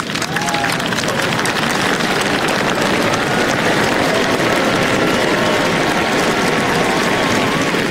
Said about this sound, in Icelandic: síðdegis í dag kom konungsfjölskyldan á svalir hallarinnar og veifaði til mannfjöldan sem hylti hana ákaft.